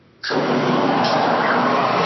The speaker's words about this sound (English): Apparently, someone is in the middle of traffic.